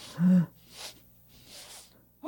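Quick, forceful breaths from a standing yoga breathing exercise come as a few short, airy bursts separated by pauses, after a brief voiced sound at the start.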